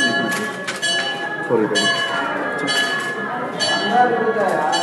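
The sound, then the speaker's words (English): A bell rings at a Hindu temple in a small village among rice paddies in southeast India during a celebration, its sustained metallic tones running throughout beneath a steady wash of crowd voices and bustle. “So that's the sound of a bell at a Hindu temple.”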